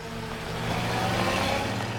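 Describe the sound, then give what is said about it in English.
Engines of vehicles streaming into a courtyard: a black staff car, open-topped vehicles and a motorbike with a sidecar. A steady low rumble with a humming tone swells slightly midway. “His attention is suddenly caught by vehicles streaming into the courtyard.”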